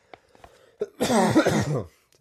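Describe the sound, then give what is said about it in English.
A person coughing: a few faint clicks, one short sharp cough, then a longer, rough, voiced hacking burst that trails off, heard alone without talk. “Just me coughing.”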